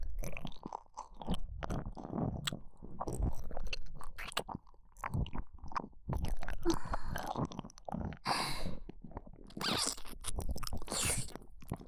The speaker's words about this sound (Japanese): ご主人様の愛おしいお耳に心を込めて口づけさせてください。